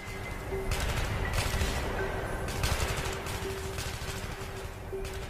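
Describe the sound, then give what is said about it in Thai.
AK-47 rifle gunfire fired down from hillsides onto a road below: loud, dense, continuous shooting with overlapping bursts and no clear gaps throughout. “เสียงปืน AK-47 ยิงลงมาจากบนเขา”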